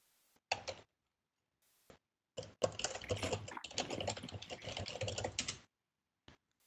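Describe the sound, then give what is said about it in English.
Quick typing on a computer keyboard, fairly faint: a few short bursts of key clicks, then a longer unbroken run of rapid tapping, and one last isolated click. “I'll just quickly type this.”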